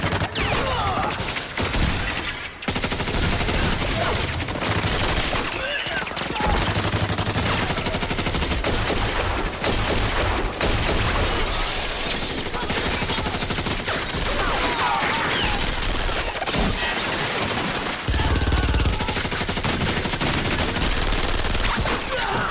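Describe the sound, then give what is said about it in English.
Sustained exchange of gunfire between guards firing from raised walkways and men shooting back, a loud, dense and continuous barrage of rapid overlapping shots and bursts lasting throughout. “Guards shoot at them from raised walkways. The men fire back but are gradually picked off.”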